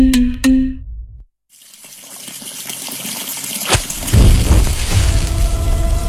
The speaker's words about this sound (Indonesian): Di beberapa wilayah seperti Colorado, Amerika Serikat, orang-orang menyalakan korek dekat air keran dan airnya